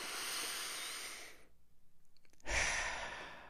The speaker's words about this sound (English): Just big inhales and maybe even slower exhales, right? And just slow down the breathing.